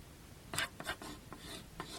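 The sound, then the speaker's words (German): Pencil strokes scratch across paper as someone draws at a kitchen table, giving a few short, faint rasping bursts with brief pauses between them. No voices are heard. “sitzen Bibi und Barbara Blocksberg mit rauchenden Köpfen und hochroten Wangen am Küchentisch und zeichnen”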